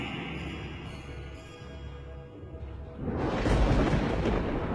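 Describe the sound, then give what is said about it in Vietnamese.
Thunder-and-lightning sound effect: a steady low rumble that swells into a louder, harsher roar about two-thirds of the way through, with no speech. “từ trên tầng không mặt biển, sấm sét như đan thành một cái lưới phủ xuống”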